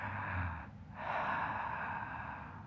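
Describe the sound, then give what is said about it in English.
A person takes a deep breath, heard faintly and alone as a short breath sound followed, after a brief pause, by a longer, airy one. “Deep breath.”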